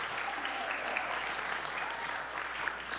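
An audience at a faith-based school event applauds as a guest is welcomed onto the stage. The clapping is even and continuous at moderate volume, with a faint low hum running steadily underneath.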